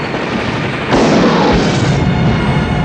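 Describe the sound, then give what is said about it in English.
Rockets explode against a base in a video game, a loud booming blast that bursts out abruptly over a dense rumbling din and holds as a sustained roar before easing slightly. “See, now they're just shooting rockets at their own base.”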